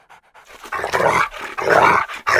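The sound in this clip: Fighting dogs panting and growling: loud, harsh, breathy panting in quick bursts with rough, rasping throat sounds, several gasps separated by short pauses.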